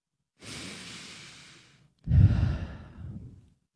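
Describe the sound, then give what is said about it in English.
A deep breath drawn in, heard as two long, airy breaths with no talk, the second louder and fuller than the first. “take a breath. Breathe in the air.”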